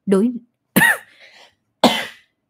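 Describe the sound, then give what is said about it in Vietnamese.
Three harsh coughs from someone with a lingering cough after Covid, each a short burst with a rough, throaty edge; the middle one trails off into a faint raspy tail. “Hết Covid xong ho liên tục luôn.”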